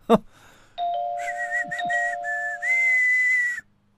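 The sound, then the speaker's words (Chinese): A man whistles while ringing a doorbell: a short click, then a sustained whistled note of about three seconds, fairly steady in pitch, alongside a steady chime-like tone. “三胖吹着口哨按了门铃”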